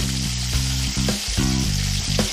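Steady sizzling of a soy-seasoned, egg-filled dough pocket frying in a pan, a continuous crackling hiss broken by a few dull low knocks, with no talk.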